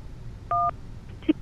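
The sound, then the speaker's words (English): A single telephone keypad tone sounds as 1 is pressed to accept a call: one steady, clean dual-pitch beep lasting about a fifth of a second, followed by a faint short thump. “To accept, press 1.”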